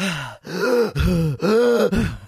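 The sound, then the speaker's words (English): A voice imitates heavy panting while running: four loud, voiced, groaning breaths in quick succession, each a strained gasp with an arching tone. “I listened back to it after I got home and all I could hear was, like, I was panting.”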